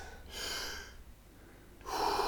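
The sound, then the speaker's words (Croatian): Deep, continuous breathing during a guided breathing exercise: a long airy inhale, a quiet gap, then another strong breath starting, each a soft rushing hiss. “Bez pauze između udaha i izdaha. Udišemo mir, izdišemo stres”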